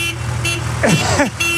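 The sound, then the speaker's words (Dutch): A horn toots once in a short burst of sweeping, wavering tones lasting under a second, rising out of a steady droning hum. “Dat is dus de toeter.”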